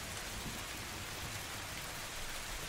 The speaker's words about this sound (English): It's raining.